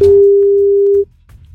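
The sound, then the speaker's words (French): Telephone ringback tone on an outgoing call to a contest participant who doesn't pick up: a single steady mid-pitched tone held for about one second, then cutting off, leaving only faint low background noise. “c'est pas grave, on appelle quelqu'un d'autre.”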